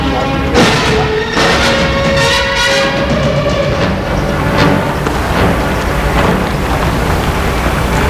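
Train station ambience with trains: a steady, dense wash of rumbling noise and clatter runs throughout, with a brief sustained tone standing out early on.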